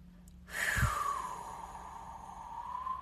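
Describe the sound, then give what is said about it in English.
A deep breath drawn in through the nose and let out through the mouth: one loud, airy exhale that swells suddenly and then trails off into a long, steady breathy hiss. “So breathing in through the nose, hold it at the top, exhale out the mouth,”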